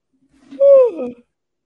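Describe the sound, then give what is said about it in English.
A single human yawn, voiced and drawn out, slides downward in pitch and trails off after about half a second, heard alone. “excuse me, that's the East Coast yawn starting to kick in.”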